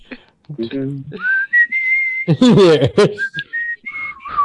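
A person whistles a tune. The notes are clear, high and sliding, with quick glides and held pitches in an irregular melodic rhythm, and a few short gaps between phrases.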